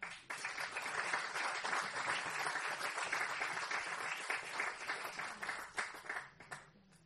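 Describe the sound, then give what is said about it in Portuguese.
Audience applause after a speech: many hands clapping in a dense, steady patter for about seven seconds, fairly quiet overall, growing more uneven and tapering toward the end. “Ouviu as palmas.”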